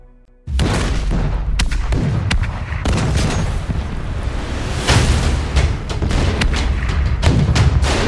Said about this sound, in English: At dawn on Sunday, June 25th, 1950, a massive artillery barrage erupted along the 38th parallel.